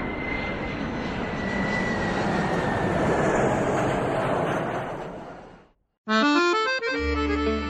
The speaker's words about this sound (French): Attends, regarde! Un avion!